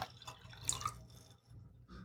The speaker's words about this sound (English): I'll pour some more of this. I'm going to pour